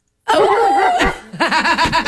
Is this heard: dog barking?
yes